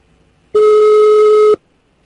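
Telephone ringing on a prank call, a single steady electronic tone lasting about one second, loud and alone.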